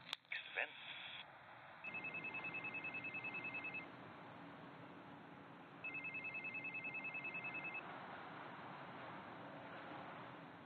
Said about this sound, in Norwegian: telefon.